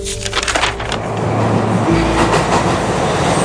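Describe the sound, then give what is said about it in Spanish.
Metro carriage ambience: a steady rumbling train ride with rattling wheels and a continuous low drone, with no clear voices heard. “En el metro la gente habla en voz baja. Acércate un poco, solo se escucha ese murmullo.”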